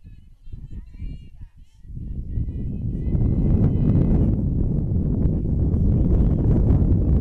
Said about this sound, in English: And again, the wind comes whipping through.